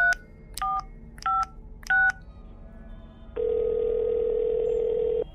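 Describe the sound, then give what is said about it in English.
Telephone number being dialed on a keypad: four short, evenly spaced touch-tone beeps at a moderate level, followed by a long, steady phone tone that holds for about two seconds. “Dial. Don't think. Dial. Don't think.”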